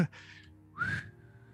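A person whistles a coded message in soft whistled language: a short steady note, a pause, then a louder note that rises in pitch, with no other sound between.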